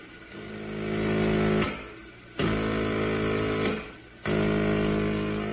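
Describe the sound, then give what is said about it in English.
Radio drama effect of a spaceship blasting a drifting freighter: three long roaring, droning bursts, the first swelling up gradually, the next two starting abruptly, each cutting off sharply, loud with no voices. “I still don't understand why you're blasting the freighter. I can't leave it drifting this way in space. Some other ship might run into it.”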